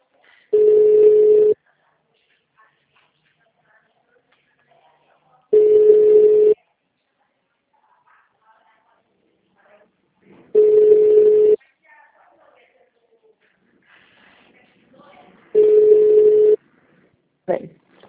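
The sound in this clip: Telephone line ringback tone sounds four times. Each is a steady, mid-pitched buzz lasting about a second, evenly spaced with long near-silent gaps that carry faint low sounds.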